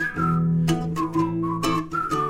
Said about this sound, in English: just purse your lips and whistle, that's the thing